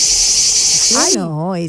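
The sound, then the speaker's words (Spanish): A cricket chirps by rubbing its wings, a steady high-pitched trill that cuts off abruptly. A human voice with a wavering pitch then follows. “¿Qué son los grillos? Es el grillo.”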